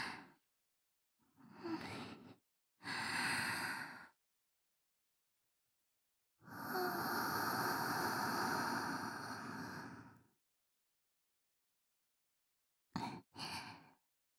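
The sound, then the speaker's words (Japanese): Deep breaths during an ear-cleaning role-play: soft, airy rushes of air that come as a few separate breaths, including one long drawn-out breath of about four seconds and two quick short puffs at the end, with silence between them. “うん、深呼吸。”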